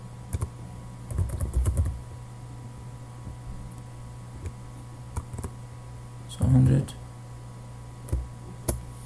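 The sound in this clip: Computer keyboard typing as a storage account name is entered: short, irregular bursts of quick key clicks separated by pauses, over a steady low hum.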